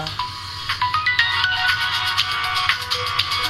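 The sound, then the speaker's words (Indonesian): A phone ringtone plays for an incoming call: a bright, melodic electronic tune that repeats without a break for the whole stretch, fairly loud, with no talking over it. “Tar, ada telepon.”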